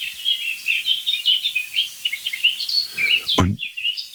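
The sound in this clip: Birdsong attributed to a blackbird about 100 metres off and a blackcap about 30 metres away: a continuous stream of high chirps, warbles and trills, with one brief low thump near the end.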